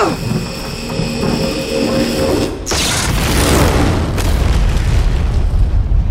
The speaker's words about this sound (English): Despite her efforts, though, the colony itself is severely damaged when the command tower is destroyed. Chip and Mateo barely survive that blast